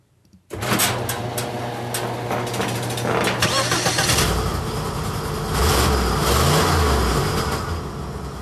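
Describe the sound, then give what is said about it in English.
A big-block Ford engine rated at 365 horsepower in a Lincoln, with an exhaust leak, starts abruptly and settles into a loud, rough run, then swells as it revs. “was that Big Block Ford? That's what I'm talking about. Woo, horsepower, y'all. That's right, 365 of them, if I do recall. 365 in the Lincoln? Yeah, man. Sounds like there's an exhaust leak there.”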